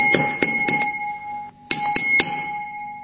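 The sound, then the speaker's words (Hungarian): Light taps on the side of a glass holding a carbonated drink ring out as bright, sustained glassy tones, about seven clear strikes in two quick groups separated by a short pause. “Tehát finoman megkocogtatjuk a pohár oldalát, akkor megindul a szénsav feltomagolása.”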